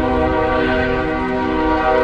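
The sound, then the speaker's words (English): A freight train in Mexico sounds a steady, loud horn blast, a rich chord of sustained tones that holds unbroken for about two seconds over a low rumble. “That's the freight train nicknamed La Bestia, or The Beast.”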